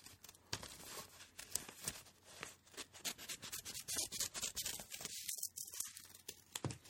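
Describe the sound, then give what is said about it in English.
Scissors cutting around a paper person figure along drawn lines, heard as many quick, faint, crisp snips with papery rustling between the cuts. “get some scissors. Adults, you can be doing this as well, by the way. And you're going to just start cutting around the person along the lines.”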